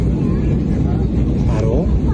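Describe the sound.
Airplane landing, heard as a loud, steady low rumble of engine and cabin noise that fills the whole stretch, with a brief voice rising faintly above it.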